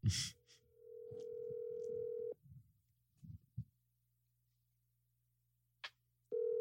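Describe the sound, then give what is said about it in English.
An outgoing telephone call rings out with a steady ringback tone: a long, even tone, a stretch of near silence broken by a few faint clicks, then the tone starting again. A faint low hum runs underneath. “Let's star 6-7 them. They're not even going to answer, but like, let's just see. Okay, call it.”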